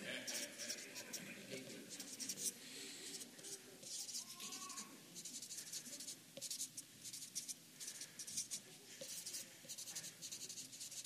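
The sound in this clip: A pen scratches on paper on a table in a run of many short, faint strokes, with a brief faint voice partway through.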